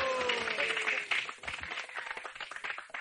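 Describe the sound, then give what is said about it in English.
Hand clapping, shown as an example while a story about Radha and her sakhis is told: a voice is heard briefly at the start, then quick, irregular claps that stay moderately loud. “And all the sakhis are clapping like this.”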